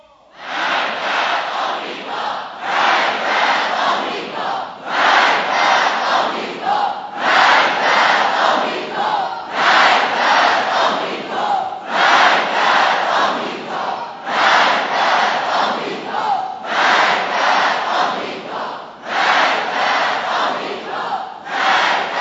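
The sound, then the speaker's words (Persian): A large crowd chanting the slogan "Death to America" in unison, the rhythmic shout repeated nine times in steady, evenly spaced bursts separated by short pauses. “بدانید و این را بدانید که این شعار شما، مرگ بر آمریکای شما، این فریادی”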